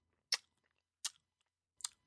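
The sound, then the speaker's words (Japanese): Someone noisily chews a boxed lunch, giving three quiet, sharp smacking and crunching bites spaced evenly apart, with near silence in between. “弁当をくちゃくちゃ言わせながら食べる神谷を片倉はけげんな顔で見た。”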